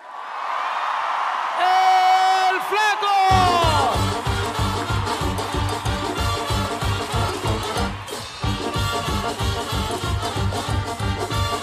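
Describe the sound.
A crowd cheers, whoops and whistles loudly to greet an arriving performer, then a driving rhythmic music beat begins under the continuing shouts.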